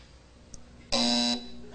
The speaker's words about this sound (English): Hit the buzzer first